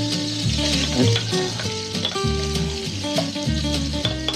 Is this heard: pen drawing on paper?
no